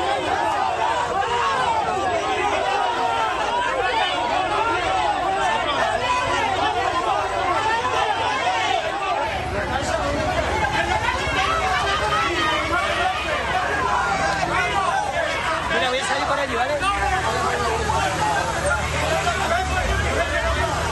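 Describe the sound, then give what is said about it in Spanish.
A large protest crowd in Madrid demanding Pedro Sánchez's resignation makes a dense, continuous roar of overlapping voices and chatter that stays steady for about twenty seconds, with no single speaker standing out. “Una multitudinaria manifestación en Madrid, estaban pidiendo la dimisión de Pedro Sánchez, lo puteaban en colores”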